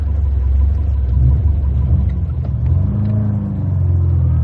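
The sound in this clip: A car engine rumbles low and steady while the car is being driven, with a slight revving swell partway through and no talk over it.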